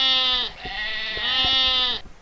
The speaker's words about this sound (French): D'ailleurs, en parlant de chèvre, j'aimerais vous en présenter une, si vous me le permettez